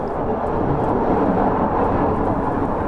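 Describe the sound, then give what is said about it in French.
Steady, loud rumble of a small electric train riding through an underground tunnel network, a dense continuous roar that holds without a break, with no voices. “À noter que ce petit train ne cause aucune pollution puisqu'il est électrique.”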